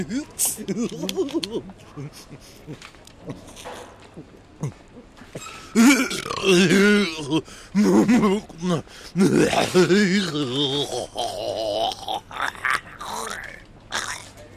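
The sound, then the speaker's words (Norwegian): A burp after drinking soda in a supermarket: a drawn-out stretch of guttural grunts, throat noises and belching, loud and uneven, mixed with vocal sounds. “Var det morsomt nå hit når jeg rapet og fikk brus i nesa mi?”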